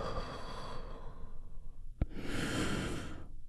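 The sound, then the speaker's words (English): A deep breath drawn in and released during a guided relaxation: a soft, airy inhale, a brief pause, then a longer breathy exhale, all faint and without talk. “a big, deep healing breath that we do all together. Here we go. And release.”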